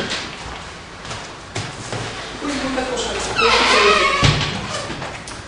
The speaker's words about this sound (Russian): я прикрою здесь двери, пусть будет такой, да?